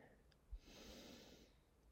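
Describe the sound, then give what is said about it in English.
A slow, deep breath drawn in, heard as a soft, airy inhale lasting about a second. It is faint and alone, with no talk over it. “So we'll start that out with a nice deep breath in.”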